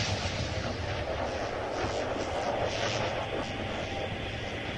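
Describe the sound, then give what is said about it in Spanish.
Steady, roaring aircraft engine drone from a radio drama effect of airplanes being shot down, a dense, continuous rumble that holds at an even, loud level throughout with no clear separate blasts. “A los 2 últimos aviones también les llega la destrucción inexorable. Son derribados con espantosa facilidad.”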